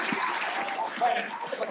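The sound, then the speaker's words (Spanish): Applause for a guest on a show, a continuous wash of clapping at even loudness, with a voice speaking over it. “¡Un aplauso para Pati Cantú!”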